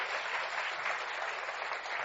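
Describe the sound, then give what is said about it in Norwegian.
Audience applause in a hall for guests at a talk event, dense, steady clapping from a crowd that continues evenly without any voices. “En applaus til de.”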